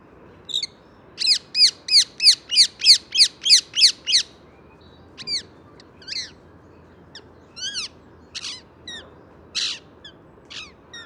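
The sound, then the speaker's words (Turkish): Green parrot squawking: a fast run of harsh, high-pitched calls in quick succession, followed by more scattered, irregularly spaced squawks over faint background noise. “Hadi gelin onların seslerini dinleyelim. İlk yeşil papağanla başlayalım.”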